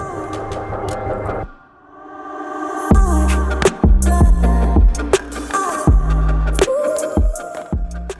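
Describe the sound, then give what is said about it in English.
A washing machine near the end of its cycle, in the rinse phase, gives off a low throbbing rumble with irregular heavy thumps and knocks, running on its own. “Just a heads up, the washer is going on behind me or beside me. And I'm just going to roll with it, but it's nearly done, so we're going to hear it do its rinse cycle”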